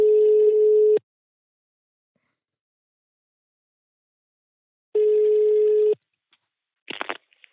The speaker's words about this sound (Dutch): We gaan haar bellen.